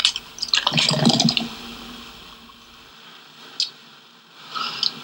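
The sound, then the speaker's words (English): Dark, bubbly Coke being poured: a short burst of splashing and fizzing at the start, then quiet with a couple of faint pops. “Listen, the sound of Coke. Dark and bubbly.”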